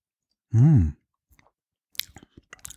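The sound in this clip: Someone sips and tastes a mild, citrusy gin from Berlin and Brandenburg: one short, loud burst, then a pause and a run of faint, scattered mouth clicks and smacks.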